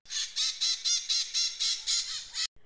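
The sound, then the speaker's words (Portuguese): A flock of maritaca parakeets squawks in trees, a rapid, loud run of about nine harsh, raspy calls in steady rhythm, then a sudden stop. “Um bando de maritacas fazia um barulhão nas árvores.”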